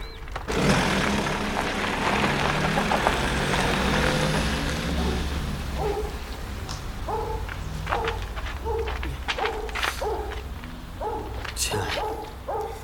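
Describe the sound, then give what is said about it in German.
A car engine roars loudly as the vehicle drives off, a dense rumble for several seconds before it eases to a quieter level. “Jetzt fahren Sie endlich los.”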